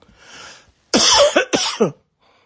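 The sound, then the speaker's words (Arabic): Coughing: a faint breathy sound first, then a loud, harsh cough followed by a few shorter coughs in quick succession. “تم التعرف على الأصوات ويبدو أنه سعال”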